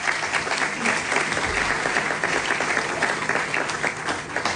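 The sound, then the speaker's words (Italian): A stage event audience gives steady applause as a guest is called up. The dense clapping holds at an even level throughout. “Bruno Vespa, che chiamo sul palco se mi fate un applauso per favore”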